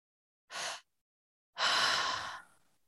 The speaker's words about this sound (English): And so you're breathing into the belly, into the chest, and then exhaling.